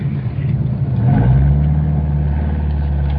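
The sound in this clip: Engine of an old 1949 car pulling away, a steady low droning rumble that swells in loudness after about a second, then holds even and strong to the end.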